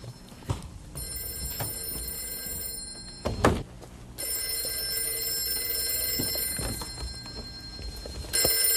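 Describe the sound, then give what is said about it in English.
A telephone rings in two long, bright, bell-like bursts lasting a few seconds each, with a third ring starting at the very end; a few soft knocks and thumps fall between the rings. “I think that's the phone ringing. I think it is.”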